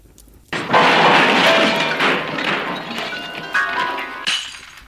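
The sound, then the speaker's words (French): A sudden crashing knock against a piano, followed by jangling, ringing tones and rattling that stay loud for a few seconds before fading, with no voices. “Ah, t'as frappé le piano.”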